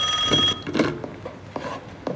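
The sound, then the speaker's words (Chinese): A factory director's telephone rings in a short, bright burst in the first half-second, then falls silent, leaving a few quieter knocks and rustles. “你看这两天啊，这电话就没断过。”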